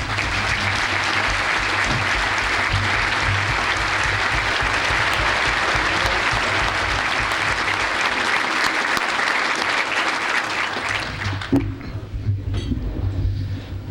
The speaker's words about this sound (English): It gives me great pleasure to introduce to you one of the greatest athletes in the history of the state of Wisconsin. Please welcome our good friend, Mark Johnson.